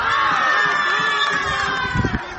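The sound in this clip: A crowd shouts and cheers at a children's football match as a goal goes in. High, young voices form a loud, continuous wash with brief surges near the end.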